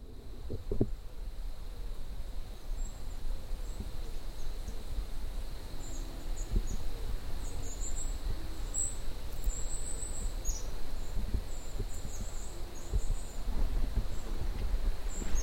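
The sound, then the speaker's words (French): Night countryside ambience by a roadside in France's diagonale du vide: steady, high cricket and insect chirping layered over a continuous low rumble, with no voices. “je voulais m'arrêter sur le bord de la route pour vous faire écouter le chant de la diagonale du vide.”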